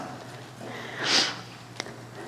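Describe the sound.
A single deep breath is drawn in through the nose during a guided meditation, a soft hissy inhale that swells and fades over about half a second, followed by a faint click.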